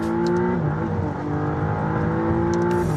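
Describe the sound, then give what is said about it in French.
A McLaren's V6 engine, the marque's first after its V8s, revs in a loud, continuous drone with a dense buzzing tone that shifts slightly partway through. “Et c'est aussi la première McLaren à avoir un V6. Et oui, avant on était sur le V8. Écoutez la sonorité.”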